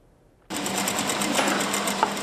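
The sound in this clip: A sewing machine stitching cloth bags in a workshop starts abruptly after a brief silence and runs as a loud, steady, even whir to the end.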